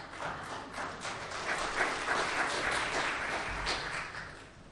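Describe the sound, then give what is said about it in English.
Church audience applauding during a celebration service with a soft, even wash of many hands clapping. The sound holds at a low, steady level for several seconds before easing slightly at the end. “So I think give them a round of applause for that.”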